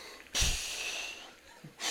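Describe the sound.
A voice imitating exhaling with breathy, hissing outbreaths: one long exhale that fades, then a second beginning near the end.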